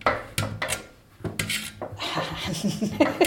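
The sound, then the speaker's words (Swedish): A knife cuts potatoes on a board in a home kitchen: a few sharp knocks and taps, then a longer stretch of steady scraping and rustling. “Nu hoppade den ene. Och det är det som händer när man står så här och delar att det kan göra det. Så får man hålla på och leta. Potatisen rymmer.”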